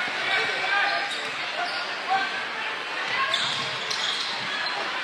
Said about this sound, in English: Doing a couple dribble drives.